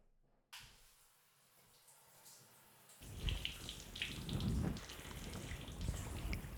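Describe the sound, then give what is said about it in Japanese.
Lukewarm water pours over hair during a salon hair wash. A quiet hiss comes first, then a steady, splashing flow starts about halfway through and grows louder. “タオル失礼いたします。目元暗くなりますよ。まずはぬるま湯から。”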